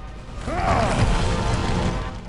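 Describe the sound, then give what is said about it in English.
Ground cracking open as lava bubbles up in a fantasy battle scene: a steady, loud rumbling and grinding crackle with creaking, bending tones, sustained for about two seconds without a clear break. “The ground cracks open, and lava bubbles up by Anubis's feet.”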